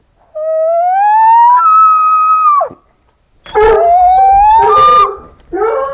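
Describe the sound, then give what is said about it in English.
A dog howls after seeing someone outside: two long, loud, tonal howls that climb in pitch, separated by a short silence, then a third howl starts at the end. No talking. “sorry, my dog saw somebody outside.”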